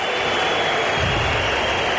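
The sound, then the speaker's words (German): Rapid Wien supporters in Block West applaud their team after its Conference League play-off exit against Hearts of Midlothian, a dense, steady crowd roar of clapping and noise that holds at a constant level. “ja, da gibt es vereinzelte Pfiffe, aber überwiegend Applaus.”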